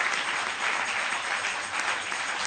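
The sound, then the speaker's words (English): An audience claps their hands at a church service: dense, steady clapping at an even loudness that fills the whole moment without a break. “Clap your hands.”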